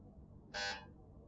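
A quiz buzzer bell is pressed during a religious poetry verse-completion contest, giving one bright electronic buzz of about a third of a second over a quiet background.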